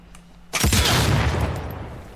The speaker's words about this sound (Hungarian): Itt egyébként elég óvatosan kell járkálni, mert hogy mindenhol aknák vannak, amikben, hogyha belesétálok, akkor bizony felrobbanok a picsába.